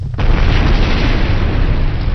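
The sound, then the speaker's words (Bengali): A huge explosion from an erupting volcano: a sudden, loud, deep boom that swells into a roaring rumble and holds for about two seconds. “রাত দুপুরের পরে একটা বিরাট বিস্ফোরণের শব্দে ওদের তন্দ্রা ছুটে গেল।”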